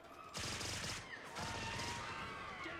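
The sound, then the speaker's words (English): Gunfire from a gun fired during a chase scene in a film comes as two dense bursts of rapid, crackling shots, split by a brief pause. The whole passage is quiet. “Now, when Jack is chasing him, he starts firing the gun to scare everyone.”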